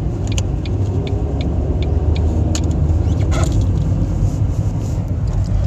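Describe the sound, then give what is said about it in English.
A car being driven gives a continuous low road rumble and engine drone at steady loudness, with faint, scattered light ticks and rattles over the top and no talking. “Okay, guys, I'm like driving here to pick up my son.”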